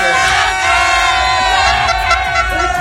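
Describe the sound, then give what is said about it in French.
A loud live crowd at a driving school contest cheers and shouts continuously, with many overlapping voices and whoops keeping up a dense, unbroken roar. “Alors, on va essayer de vivre en direct l'ambiance. Il y a le public qui est là.”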